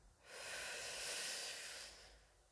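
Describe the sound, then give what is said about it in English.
A slow, deep breath drawn in during a guided group council exercise, heard as one long, steady airy rush that swells, holds and then fades, with no talking. “Taking a deep breath in”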